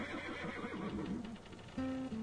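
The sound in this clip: A horse neighs in a long, wavering whinny that shakes up and down in pitch, followed by a short, steady sustained tone.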